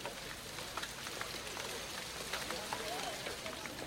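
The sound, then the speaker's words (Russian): Light, drizzling rain makes a soft, steady, faint hiss with scattered tiny patters and no clear breaks. “На следующий день с утра зарядил мелкий противный дождь.”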